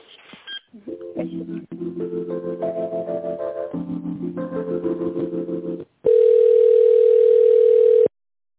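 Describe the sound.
Telephone tones play while a call is being transferred: a stepped run of electronic tones shifting between pitches, then, after a brief break, a loud steady continuous tone that ends abruptly, with no voices.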